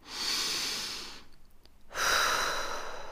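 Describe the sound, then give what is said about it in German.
Deep breathing in and out during a guided body-relaxation exercise: one long, airy breath, a quiet pause, then another strong breath that carries on to the end. “tief ein- und ausatmen.”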